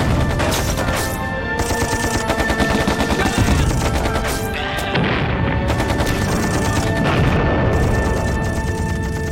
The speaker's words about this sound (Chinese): 射击！